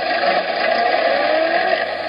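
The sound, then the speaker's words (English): A car starting sluggishly, heard as an even, unbroken engine drone with a bright hiss on top. It holds a steady loudness throughout, with no distinct bursts or revs standing out. “So it's a car not starting very fast.”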